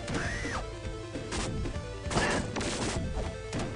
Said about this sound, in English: It's the noise of a wrestling mat. That's probably it. You hear it? Yeah. It's a wrestling mat from, like, pro wrestling when they knock somebody down.